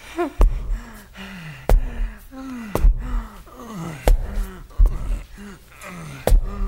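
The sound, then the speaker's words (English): A man pants heavily after climbing stairs, a steady rhythmic series of loud, voiced gasping breaths, each sharp intake trailing into a falling, throaty exhale. “Oh, God, he's taking the stairs. That means he's gonna be way out of breath.”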